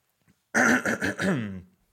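A single raspy cough or throat-clearing bursts out of silence, one rough, voiced rumble of about a second made of a few quick pulses that fade out.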